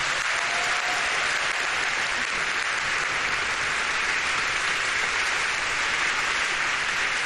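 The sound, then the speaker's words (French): Congregation applauding the Lord in a French-language church service, a loud, even sheet of many hands clapping with no pause. “Voilà, acclamons le Seigneur.”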